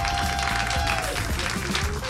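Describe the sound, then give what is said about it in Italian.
Audience applause at a stand-up comedy benefit evening, dense continuous clapping at steady volume throughout. “questa sera ci sono i Comedian per Gaza e vorrei un altro applauso”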